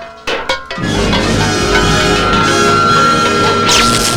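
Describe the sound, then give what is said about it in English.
A sword slices through pots and crockery: two quick, sharp crashes at the start, then a loud, sustained ringing din. “The sword flies into the air and slices through the pots and crockery.”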